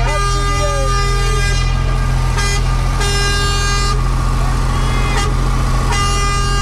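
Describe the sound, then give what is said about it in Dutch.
A truck drives past a crowd, its air horn blowing several long, tonal blasts over a constant low engine drone, with people talking throughout. “De truck rijdt in principe gewoon recht voor jullie neus nu.”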